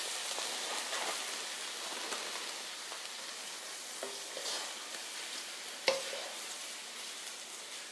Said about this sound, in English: Oh, there we go. Fried rice.